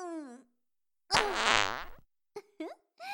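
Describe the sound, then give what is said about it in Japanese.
One loud, drawn-out fart of about a second, released into a cupped hand in a roleplay, buzzing and sputtering. Speech comes before and after it. “強烈ですわね、お嬢様の握りっぺ。”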